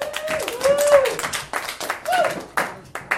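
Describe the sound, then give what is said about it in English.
Studio audience applause and clapping as a guest is welcomed onto a show, with a steady, busy patter of hands that swells and dips over a few seconds. Brief tonal vocal sounds rise above the clapping. “Everyone, please give a round of applause”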